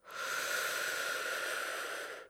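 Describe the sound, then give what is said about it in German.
A deep breath drawn in through the airways makes a long, steady, airy hiss. It swells quickly, holds for about two seconds and then stops, heard alone without speech. “Einatmen.”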